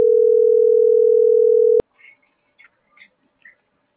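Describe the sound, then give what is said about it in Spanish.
A steady telephone tone sounds on an unanswered call, holding one even mid-pitched note for almost two seconds before cutting off abruptly, followed by a few faint clicks. “Sí está marcando, pero no me contesta.”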